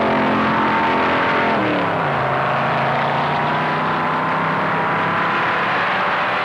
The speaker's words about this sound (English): which are packing 427 V8 engines. The Chevy Impalas have their own 427s. Let's pick up the action late in the race.